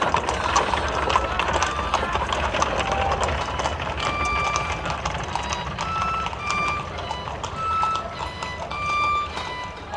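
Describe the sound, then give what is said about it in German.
Hooves clip-clop steadily as a horse-drawn cab pulls away, a continuous rhythmic patter of hoofbeats over a low rumbling underneath, moderately loud throughout. “Dann fuhr der Wagen los, von Hohngelächter verfolgt.”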